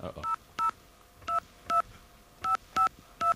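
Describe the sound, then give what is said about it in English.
Touch-tone telephone keypad dialing to call an AT&T operator: short, clean dual-tone beeps, about seven, come in an uneven rhythm with brief silences between them. “this sound here means that we're ready to call our AT&T operator with a question.”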